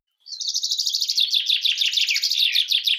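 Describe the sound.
A small bird chirps in a rapid, high-pitched trill that starts after a brief silence and runs steadily and loudly to the end, with no other sounds.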